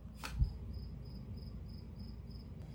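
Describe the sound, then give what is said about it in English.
A cricket chirps outside the room in a steady series of faint, high-pitched pulses evenly spaced over a low background hum, with no voices. “can you hear the cricket? That's not in my room, but it's outside my room. You can hear a cricket making sound right now.”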